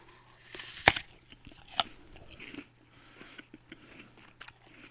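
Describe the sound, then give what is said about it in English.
Crisp bites into a green apple with a reddish-pink blush: two sharp, loud crunches, then softer, scattered chewing crackles that fade into quiet munching. “We have apples today. And we don't know what kind of apple this is, but we're going to have a quick taste test here.”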